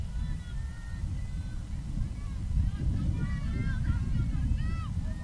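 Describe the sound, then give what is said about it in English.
Wind blows across a baseball field at the Rattlesnake ballpark, a constant low, blustery rumble that swells a little partway through and continues to the end. “You hear the wind up here. Of course, it is the Rattlesnake, so that is a given to have the wind.”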